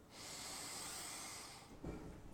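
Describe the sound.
Slow, deliberate breathing during a guided relaxation exercise: a long, smooth hissing breath of more than a second, then a brief, softer breath. No voice is heard.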